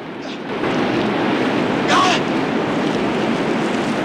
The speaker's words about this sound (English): The remaining metal kayak slides down the waterfall behind him. Limbs flail in the white water, and then a figure surfaces.